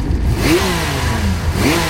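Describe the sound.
Motorcycle engine revving, tied to a motorcycle enthusiasts' event in Linares in the Maule region; two quick rising revs stand out over a steady rumbling, noisy engine drone.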